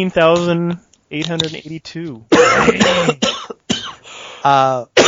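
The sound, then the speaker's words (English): A sudden coughing fit: a few harsh coughs and some throat clearing break up short voiced vocal sounds. “Sorry, random coughing fit. Couldn't help it.”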